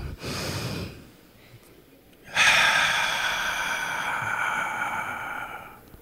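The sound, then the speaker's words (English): A deep breath: a short breathy intake, then after a pause a long, loud sustained exhale with a faint tonal edge that slowly fades away. “Let's take a deep breath.”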